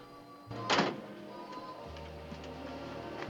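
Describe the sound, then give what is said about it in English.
A car door of a yellow convertible in a dark car park shuts with a single soft thunk as a man gets into the driver's seat, followed by a faint low hum. “He stands by the door and looks at her for a moment, then gets in the driver's seat.”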